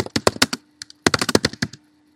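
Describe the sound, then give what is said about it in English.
Typing on a computer keyboard: a quick run of sharp key clicks, then a few isolated taps, then a second fast flurry of keystrokes that stops abruptly. “I'm going to type.”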